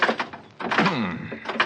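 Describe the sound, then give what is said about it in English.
Stuck door being tried, heard as a few knocks and rattles with a creaking, groaning stretch in the middle. “This door doesn't seem to want to... Trying to pull some trick? No. Open that door. Well, it's stuck, I guess.”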